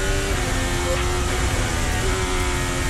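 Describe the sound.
A Formula 1 car's engine at the Barcelona Grand Prix, a loud, steady, buzzing drone with layered harmonics that holds constant level over the whole stretch.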